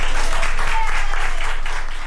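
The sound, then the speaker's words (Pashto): Doctors and nurses in Madrid, Spain, applaud a woman over 100 who has recovered from coronavirus. The clapping is dense and steady throughout, a sustained, even wash of many hands. “د اسپانیا په پلاسمینا مادرید کې ډاکټرانو او نرسانو هغې مېرمنې ته چکچکی کوي چې تر سلو کلونو تیر ده او له کورونا رغېدلې ده.”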